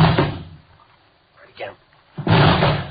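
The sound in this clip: Police officers force open a locked apartment door: two loud, heavy crashing impacts, one at the start and a longer one near the end, with men's voices in between.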